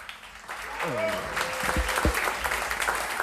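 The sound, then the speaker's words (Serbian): Concert audience applauding jazz musicians as they are introduced. Clapping swells early and stays dense and steady, with voices heard over it. “molim vas za jedan aplauz, pripremite dlanove”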